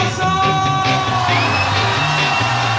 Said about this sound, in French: avec vos deux bras, vos oreilles, vos trous du cul, tout ce que vous avez pour faire du bruit, une ovation debout pour monsieur David